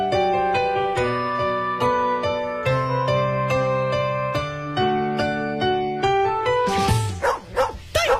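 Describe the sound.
A few sharp dog barks voice Xiaotian, the mythical hound, in a Wuliangye zodiac liquor advert. They burst out loudly at the end, right after a stretch of tuneful music.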